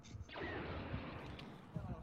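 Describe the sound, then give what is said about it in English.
A blast explosion in a video game bursts in with a broad, rushing roar that holds steady and loud for the rest of the moment. Low thuds break through it a few times. “Extend the bridge first and then blast. I think I just blasted it.”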